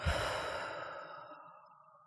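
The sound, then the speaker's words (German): A deep belly breath through the nose, a single long, airy rush that starts strong and gradually fades over about two seconds. “Ich mache das mal gerade mit. Wenn du deine Hand auf deinen Bauch legst und so richtig tief einatmest, durch die Nase einatmest, dass sich deine Hand hebt auf der Bauchdecke.”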